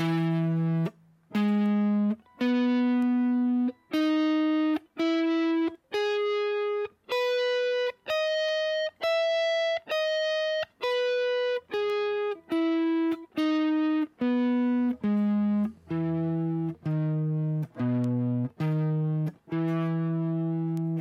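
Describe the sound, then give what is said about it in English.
An E major seven arpeggio is played on guitar from the root at the seventh fret of the A string. Many distinct single notes climb upward, then descend in an even, moderate rhythm, with no talking. “So starting with E major seven arpeggio, you're going to start it over here on the seventh fret of the A string, on the root, that is.”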